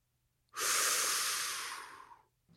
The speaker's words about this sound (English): only one thing left to do, and that is inhale a hot breath